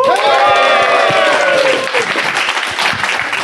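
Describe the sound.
A live audience in Sunnyvale applauds to welcome a guest, with loud, continuous clapping; a voice rings out over it at the start before the applause carries on alone.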